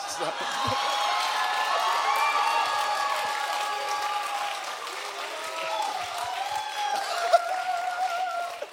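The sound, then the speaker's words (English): A studio audience at a late-night talk show taping claps and cheers. Steady, fairly loud applause carries through, with whoops and shouts rising out of it and a brief sharp spike near the end. “There's three people on this stage, the only ones that don't know why everyone just cheered for Schindler's List.”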